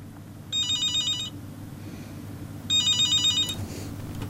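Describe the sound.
A telephone rings for an incoming call: two bursts of bright, warbling electronic ringing separated by a short quiet gap, fairly loud and alone with no talk.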